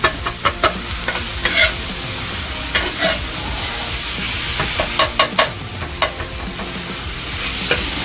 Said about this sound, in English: You want to hear that chop, chop, chop, chop, chop, chop, chop.